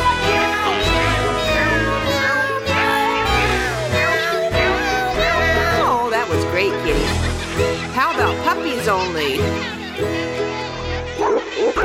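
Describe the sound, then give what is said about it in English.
Voices imitate cat meows within a children's song, repeated sung meows over a full musical accompaniment with a steady beat. “How about kitty cats only? Are you ready? Meow, meow, meow, meow, meow.”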